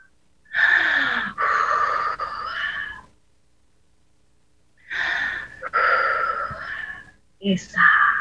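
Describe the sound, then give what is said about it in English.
Breathing out during a breathing exercise: long, breathy, partly voiced exhales come in two drawn-out stretches separated by silence, and a shorter one starts near the end. “Exhale. Exhale.”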